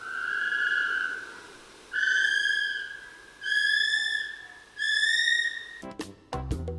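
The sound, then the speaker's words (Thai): A kiwi, the flightless bird of New Zealand, gives four long, shrill whistled notes separated by short pauses, followed by a brief rough crackle at the end. “สัตว์วันนี้เป็นนกที่บินไม่ได้ อยู่ที่นิวซีแลนด์มีชื่อเหมือนผลไม้ นั่นคือนกกีวี”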